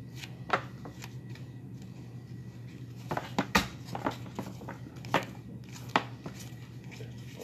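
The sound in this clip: Playing cards are handled and covered on a table: faint soft slides and light clicks come at irregular moments over a low, steady hum.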